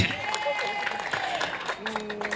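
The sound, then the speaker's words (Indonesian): Audience applause at a high-school competition event with judges, a steady dense patter of many hands clapping that holds throughout, with faint sustained tones running beneath it. “Tepuk tangan dulu buat RRI.”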